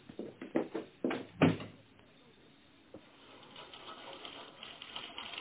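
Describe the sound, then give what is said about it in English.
Tap dancing comes as a quick run of sharp, clattering taps, loud at first and then thinning to quieter, scattered taps over a hissy background. “More tap dancing.”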